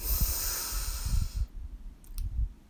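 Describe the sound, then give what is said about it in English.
A slow, deep inhalation during a guided breathing exercise, a soft airy hiss lasting about a second and a half before it stops, with low muffled thumps underneath. “And our final breath in”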